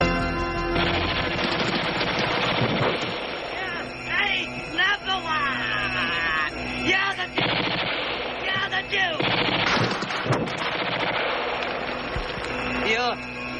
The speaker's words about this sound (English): The president now has a machine gun uh, and he starts to shoot at the Duke and he starts taunting him. And I think you have a clip of this.